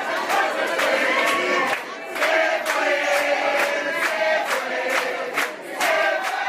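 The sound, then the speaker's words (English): A crowd of hundreds celebrates at a Venezuelan restaurant in Doral, South Florida, late into the night; loud massed cheering and chanting voices run almost continuously, dipping briefly twice before surging again. “in the USA, including South Florida, Miami's largest Venezuelan community of Doral, where celebrations went long into the night.”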